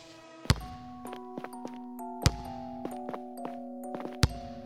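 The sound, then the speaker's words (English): A basketball bouncing, three heavy low thuds spaced roughly two seconds apart, sounding over sustained, tinkling musical tones. “Sorry, can you stop bouncing that basketball?”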